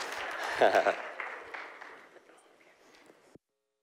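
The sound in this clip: Applause welcomes a speaker to the stage at a church service, a dense wash of clapping that peaks early, then thins and fades steadily for about three seconds before cutting off abruptly.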